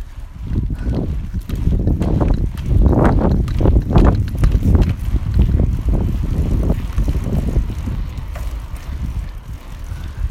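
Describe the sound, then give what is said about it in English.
Wind buffets and rumbles across the microphone while a bicycle is ridden up a big hill outdoors, a low, gusty roar that swells and eases throughout with no talk. “I'm currently riding my bike and there's a big hill coming up. So give me a second while I climb up this hill.”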